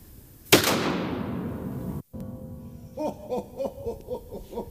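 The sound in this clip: A pump-action shotgun fires one sharp, loud blast with a decaying tail, followed by a brief dropout to silence and then people talking.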